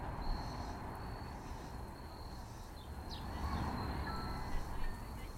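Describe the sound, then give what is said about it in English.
Crickets and birds outdoors beside street work, a breeze and pedestrian paths: a thin, steady high cricket trill runs throughout, with a few faint brief bird chirps over a low, quiet rumble of street noise. “extraordinary alignment of polyrhythms between street work, breeze, pedestrian paths, crickets and birds' jams, and their amazing harmony.”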